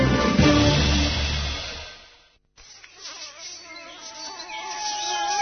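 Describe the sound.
A mosquito whines in a thin, high-pitched buzz that drones steadily, drops out briefly near the middle, then resumes with a wavering tone.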